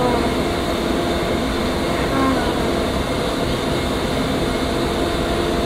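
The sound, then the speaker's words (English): A tram ride moving along gives a continuous rumbling drone with steady humming tones layered over it, holding an even level from start to finish. “when this tram comes to a stop, I want you to lower your feet, lower your head, and watch your steps.”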